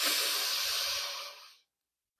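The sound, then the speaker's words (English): A person taking a breath: one long, airy, hissing breath that holds steady, then fades out over about a second and a half into silence. “I'm taking a breath.”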